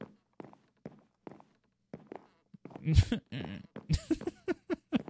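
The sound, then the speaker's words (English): Footsteps on watermelon blocks in the Minecraft video game, with a hollow, wood-like knock. A steady run of short, soft taps comes first, then louder and busier sound overlaps the steps in the second half. “I love the fact that I'm walking on watermelon. It sounds like I'm walking on wood, but that's all right. I didn't know watermelon sounds like that”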